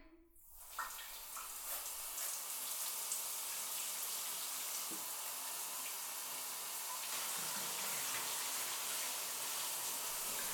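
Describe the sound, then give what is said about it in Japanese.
Running water rinses shampoo out of hair. The steady, loud, broad hiss starts within the first second and continues unbroken to the end. “じゃあ流してくね。”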